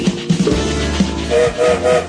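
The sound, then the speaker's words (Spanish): A train whistle sounds three short, even blasts near the end, over the low rumble of a moving train with a few sharp knocks before it. “escucharon el silbato, ya estamos en camino, en marcha, como todos los días.”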